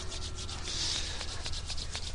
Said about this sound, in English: Rub your hands a little bit.